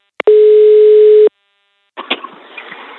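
The ringing tone of an outgoing telephone call: one steady, loud, low-pitched tone lasting about a second, then a pause and some faint rustling noise.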